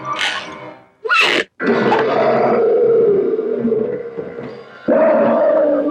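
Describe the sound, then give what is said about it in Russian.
A lion roars as it slowly and menacingly steps out of a wooden box in an animated tale. A brief cry leads into a long, deep, sustained roar, which swells again in a fresh burst near the end. “Из ящика медленно и грозно выходит лев.”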